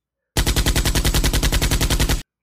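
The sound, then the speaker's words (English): A sustained burst of machine-gun fire from a concrete bunker on a barbed-wire bluff: many loud rounds fired in a rapid, even rhythm for about two seconds, then an abrupt stop. “This was massacre by machine gun.”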